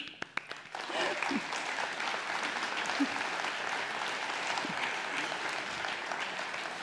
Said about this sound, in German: begrüßen Sie jetzt bitte mit einem proletarischen Applaus unseren Generalsekretär.